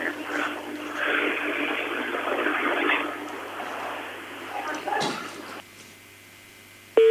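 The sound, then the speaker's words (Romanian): A telephone call cuts off over a hissing, noisy line. The rushing noise drops out abruptly, leaving a quiet hum, and a short, loud steady line tone sounds at the very end. “Probabil că i s-a întrerupt convorbirea doamnei, da, doamna Dina, din județul Telorman.”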